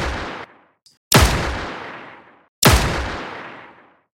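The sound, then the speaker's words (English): Gunfire from pistols and rifles as a crew fights off robots aboard a ship: a few loud, booming shots, two of them complete with long decaying tails, spaced more than a second apart. “They are all equipped with pistols and rifles. They encounter THX-500s who are under Helix's control. It's only three of them, but the crew and the lieutenant and the captain take them out with their weapons.”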